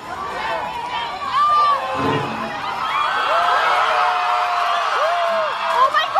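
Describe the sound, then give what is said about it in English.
A loud crowd of student protesters cheers and whoops as the Silent Sam Confederate statue is toppled at the University of North Carolina at Chapel Hill. The shouting and high whooping are continuous, with voices throughout. “That was the sound of student protesters toppling Silent Sam and breaking into cheers when it fell.”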